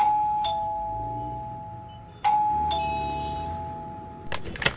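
A doorbell at a flat rings twice, each a two-tone ding-dong chime with a clear ringing decay. The second ring comes about two seconds after the first.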